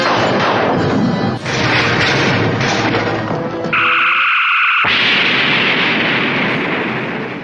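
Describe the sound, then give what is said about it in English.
Starship phaser banks fire in a loud barrage. Heavy, booming blasts come in quick succession, then a brief high tonal whine gives way to a sustained roaring discharge that slowly eases off. “All phaser banks, fire!”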